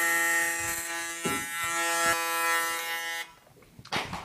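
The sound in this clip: An electric hair clipper buzzing while shaving a 3 mm undercut at the sides: a loud, steady harmonic hum with brief dips that cuts off after about three seconds, followed by faint rustling.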